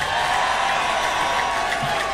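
A concert audience applauds and cheers for a band member in a dense, steady wash of clapping and crowd noise lasting about two seconds.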